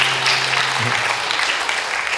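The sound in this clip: A big round of applause from an audience for a helper joining the speaker on stage: thick, steady clapping that stays loud throughout.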